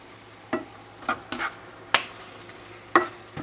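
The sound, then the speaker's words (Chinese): A utensil stirs shrimp and pork in a pan with cream sauce, making several sharp scraping clatters at uneven intervals over a faint, low background hum. “好，都已经把它拌炒完之后呢，我们就加入意大利面喽。”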